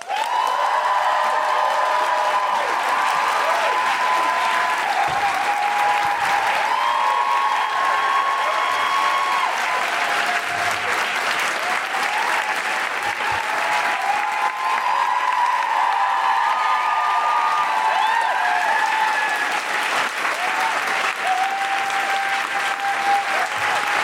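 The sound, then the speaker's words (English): An audience at a live stage show applauds and whoops to welcome a performer. Thick, sustained clapping runs throughout, with repeated high whoops and cheers rising above it. “Please welcome to the stage and make wonderful, woohooing, groundling, extraordinary, guilty feminist noises.”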